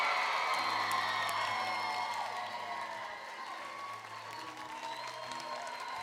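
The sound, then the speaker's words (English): Cheering, whoops and applause from a crowd at a church gathering, loud at first and easing slightly midway, with sustained tones running underneath. “So on the count of three, let's make some noise. Ready? One, two, three, eight, seven!”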